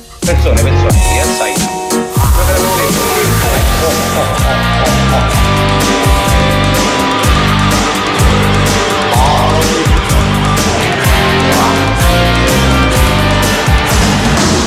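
A rock song plays loud and continuous, with a steady pounding drum beat and dense guitars filling the whole stretch.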